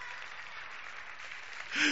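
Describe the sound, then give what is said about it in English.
An audience claps hands for Jesus in a soft, even patter of many hands, holding steady until a short, louder burst of sound near the end. “Come on, somebody clap your hands at Jesus.”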